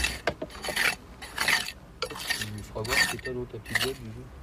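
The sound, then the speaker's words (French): A trowel scrapes the dried crust off mud flows at an archaeological dig, making rough, rasping strokes in repeated bursts while people talk intermittently. “Et dans le cas des coulées de boue qui se trouvent devant les filles là, la croûte supérieure des coulées de boue, il faut la gratter à la truelle, elle partira pas au pinceau.”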